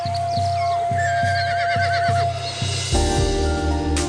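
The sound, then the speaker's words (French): A horse galloping away: steady, rhythmic hoofbeats thud beneath a high, wavering whinny, then a denser, heavier wash of sound takes over in the final second. “Il s'éloigne au grand galop.”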